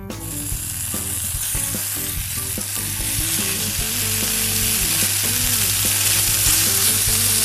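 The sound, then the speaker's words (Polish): Diced bacon, rind cut off, frying in a pan over the lowest heat: a steady hiss with crackling pops and some scraping, growing slightly louder toward the end. “Pokrojony boczek wrzucamy teraz na patelnię i czekamy tak długo, aż wytopi się z niego tłuszcz i zrobią się z niego skwareczki. Ważne, żeby smażyć go na najniższym ogniu.”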